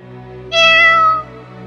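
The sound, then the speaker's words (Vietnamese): A black cat gives a single loud, clear meow with a slightly falling pitch, lasting under a second over a steady low hum. “Giữa khung cảnh yên lặng đến mức khiến người ta khó thở, con mèo đen kia lại kêu một tiếng.”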